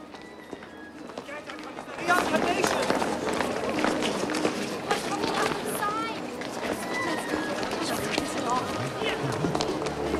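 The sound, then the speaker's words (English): A man runs past on a cobbled street, his quick footsteps forming a dense, steady patter that starts abruptly about two seconds in and carries on loudly, with murmuring voices underneath. “A man in a cap runs past him. The inspector sees a small crowd has gathered on the cobbled street ahead.”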